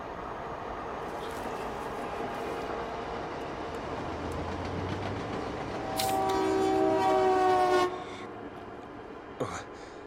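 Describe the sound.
Train at a railway station: a continuous rumble of rolling rail cars, joined by a loud, sustained horn blast of about two seconds, after which the rumble carries on more quietly.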